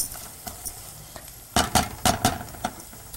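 A spoon stirs uncooked rice in oil in a pan under a soft sizzle, with a few scraping strokes that grow louder and busier in the second half.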